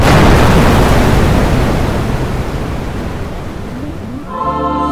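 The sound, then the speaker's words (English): A bomb explosion: a loud, dense roaring rumble that slowly fades over several seconds, with a brief tonal sound rising at the very end. “Oh my god, it's a bomb.”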